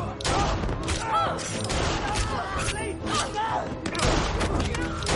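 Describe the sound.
Gunfire in a horror film scene as a man shoots an executioner and onlookers: many loud shots in quick bursts over a dense mix of thuds and shouting voices.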